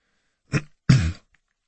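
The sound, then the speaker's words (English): Someone nervously clears their throat in two short, rough bursts, the second longer and stronger, against near silence. “I cleared my throat, nervous to ask.”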